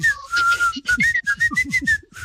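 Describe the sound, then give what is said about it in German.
Whistling from a song carries a lively tune of quick short notes and a few held ones, high and clear, over a low rhythmic beat. “ich habe sofort das Pfeifen, es wurde ja gepfiffen in dem Song, habe ich sofort drauf.”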